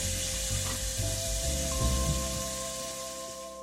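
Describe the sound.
Bacon sizzles and spits in a frying pan over lowered heat, its fat rendering. A steady, bright hiss carries scattered sharp crackles and pops throughout, fading slightly toward the end.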